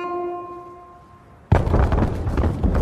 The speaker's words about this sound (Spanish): El gran edificio viejo explota.